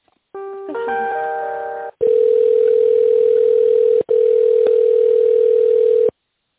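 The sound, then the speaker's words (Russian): Telephone line tones while a call is being transferred: a short chord-like tone, then a loud, steady single-pitched tone that runs for about four seconds with one brief break, with no voices. “Сейчас сорвался звонок, минутку я вас переключу.”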